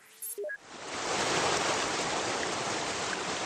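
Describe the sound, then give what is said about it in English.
The swollen Passaic River in northern New Jersey, cresting 24 feet above normal after Hurricane Irene, rushes in a dense, steady roar. A few short electronic tones sound just before the roar rises. “That's the sound of the swollen Passaic River. It crested 24 feet above normal yesterday and swamped nearby towns in Wallington and Paterson.”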